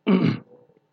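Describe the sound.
One short, loud throat clearing, a raspy rasp that ends abruptly and trails off into a faint, breathy tail.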